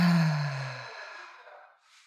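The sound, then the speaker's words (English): A deep breath slowly exhaled, beginning with a soft voiced sigh and trailing into breathy air that fades over about two seconds. “Take a deep breath. Hold it. Exhale, release.”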